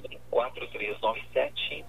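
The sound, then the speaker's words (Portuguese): A caller's radio playing in the background over a telephone line, heard as thin, narrow-band radio voices that carry on steadily at a moderate level. “Por gentileza, abaixa o volume do seu rádio.”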